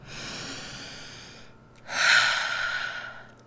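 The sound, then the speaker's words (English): A deep human breath: two long, airy breath sounds with a short gap between them. The second is louder and fuller than the first, and no one talks. “let's take a deep breath”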